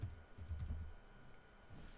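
Typing on a computer keyboard: faint, uneven bursts of soft key clicks and taps in quick clusters, with no one speaking.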